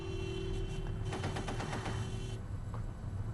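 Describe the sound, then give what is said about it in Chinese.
Gunfire from an armoured car column comes as a rapid, sustained burst of automatic shots over a steady noisy background, then breaks off into a lower rumble. “英国人的装甲车队也开火了。”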